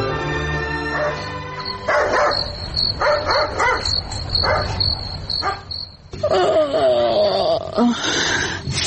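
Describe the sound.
Dog barking in a spoken drama scene: several sharp barks in uneven bursts over a steady, high, chirring insect-like tone, with a few louder yelps near the end.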